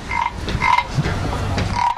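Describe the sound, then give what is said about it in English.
Rasping croaks from a wooden croaking frog toy made in Thailand, repeated a few times in a loose rhythm, each a short buzzy, ratchet-like call over steady low background noise. “sells wooden croaking frogs. Where are these made? In Thailand.”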